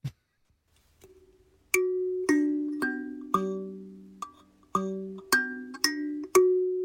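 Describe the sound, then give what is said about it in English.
An African piano played by someone in South Africa gives a sparse series of plucked metallic notes. Each note rings and decays before the next, at a moderate, irregular pace, with no voices. “It is a African piano, and she lives in South Africa.”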